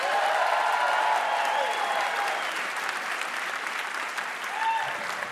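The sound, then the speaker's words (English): Sustained audience applause welcoming a stand-up comedian back onto a comedy show, a dense, steady wash of clapping that stays loud throughout and eases slightly after the first few seconds. “Thank you, audience, for applauding my welcome.”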